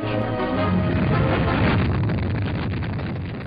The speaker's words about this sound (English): In this nose cone is packed the 100-foot balloon of Echo 1 to be carried into orbit by a Thor-able Delta rocket. And like in 2024, that rocket back in 1960 was carrying a satellite.